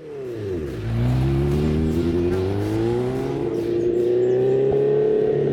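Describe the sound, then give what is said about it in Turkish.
Motorcycle engine running after a refuel with fresh petrol and the tank refitted, a bike needing much work but running, with a deep, rich vibration. Its pitch dips, then climbs and holds a loud, steady drone with no talk. “Motora bineli birkaç yıl oldu ama bu motorun sesi çok hoş geliyor. Titreşimler çok hoş ve tok.”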